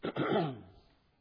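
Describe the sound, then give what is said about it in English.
A speaker giving a Bible sermon lets out a muffled cough, trying to stifle it. A short catch is followed by a longer, raspy, throaty burst that fades away. “Now, see if I can't muffle this coughing a little bit.”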